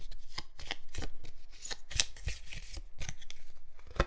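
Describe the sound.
A deck of question cards being shuffled, quiet rapid riffling clicks arriving in quick bursts with brief gaps, plus a sharper snap near the middle and another near the end.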